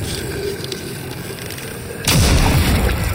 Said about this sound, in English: I pull the trigger and blast his skull into pieces